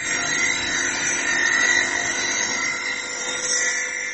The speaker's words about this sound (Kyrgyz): Мрамор ташты кесип, ар кандай көлөмгө келтирүүчү кыргыз травертин заводунун иштеп баштаганына жарым жыл чабыл элек.